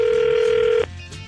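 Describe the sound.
Ringback tone on an outgoing telephone call: a single steady, mid-pitched tone that holds for just under a second and then cuts off, leaving faint line noise.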